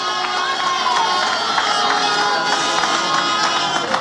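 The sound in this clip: Large crowd cheering outdoors at a celebration: a dense, loud, continuous roar of shouts and cheers, with voices blending into the din throughout.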